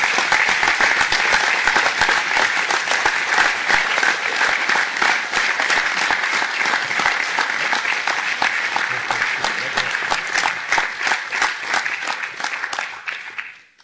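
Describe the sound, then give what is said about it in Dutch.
An audience applauds at an award ceremony for an appointment to the Order of Orange-Nassau. Many hands clap in sustained, loud applause that holds steady for over ten seconds, then fades out at the end. “En ik mag jou ook naar voren uitnodigen en u mag weer applaudisseren.”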